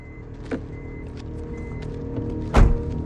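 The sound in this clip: Car door sounds as a man gets out of a car: two dull thunks, the second louder and heavier, set against a low steady hum.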